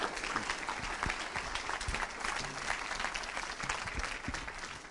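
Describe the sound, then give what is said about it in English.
A church audience applauds to welcome a guest pastor, many hands clapping in a dense, even patter that holds steady from start to finish. “So let's give him a big hand and welcome him.”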